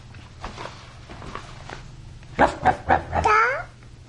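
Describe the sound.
A dog gives three quick, sharp yips in a row, then a high, wavering whine. Faint talk comes before the barks.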